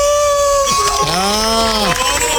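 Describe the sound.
A man imitates a wolf howl, voicing a few long, gliding tones that arch up and fall back down over a low steady background.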